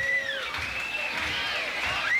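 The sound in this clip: A concert crowd cheers and claps while waiting for the band to return for an encore. A continuous roar runs throughout, with shrill sliding whistles over it.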